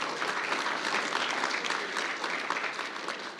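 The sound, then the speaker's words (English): Audience applause welcomes people onto the stage for a church child dedication: dense, steady clapping from many hands that holds at an even level throughout. “Give them a hand. Make them feel welcome.”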